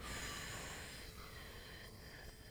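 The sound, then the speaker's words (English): A steady exhale through the mouth during a guided breathing exercise: a soft, airy breath that runs unbroken through the whole clip, with no talking. “Everyone at home, breathe along with us. Breathe out through your mouth.”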